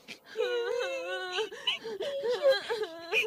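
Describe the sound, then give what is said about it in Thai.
Two young siblings cry, whimpering and wailing in wavering, moaning bursts that rise and fall in pitch, fairly clear and alone. “สองพี่น้องร้องไห้ตลอดทั้งคืน”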